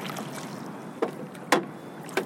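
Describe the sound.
A rowboat pushes out into glassy, calm water, with three soft splashing oar strokes spaced over a faint, steady wash of water.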